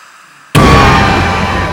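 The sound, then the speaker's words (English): A sudden loud crack bursts into a heavy, sustained roaring rumble, a dramatized effect of the Earth's mantle cracking and rupturing near a town before an earthquake. The roar stays loud and steady to the end. “It nears a town. The Earth's mantle cracks and then ruptures.”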